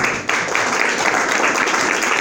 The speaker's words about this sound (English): I think you all should clap for yourselves and give yourselves a round of applause.